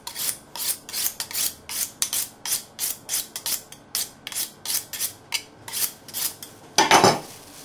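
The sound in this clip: A knife is honed on a sharpening steel in many quick, regular metallic scraping strokes with a steady rhythm, ending in one louder, harsher stroke.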